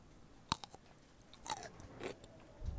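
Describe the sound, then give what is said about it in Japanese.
Biting into a tenmusu rice ball: a sharp crunch, then a few soft, moist chewing sounds, faint and with no talk. “おすすめのお漬物もいただきながら、この天むすをいただきたいと思います。”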